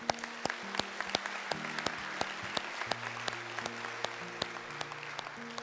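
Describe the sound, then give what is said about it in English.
Soft applause from a church audience after a prayer, crisp, fairly evenly spaced claps over faint sustained keyboard tones. “In fact, can we just give those a hand that just prayed that prayer?”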